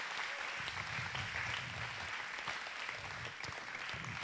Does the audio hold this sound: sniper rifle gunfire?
no